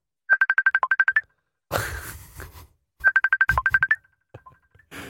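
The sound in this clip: Ringtone of an incoming FaceTime call from an internet meme: two bursts of quick, evenly spaced, bright beeping pulses, each about a second long, separated by a short burst of rougher noise, with a few faint stray sounds trailing after.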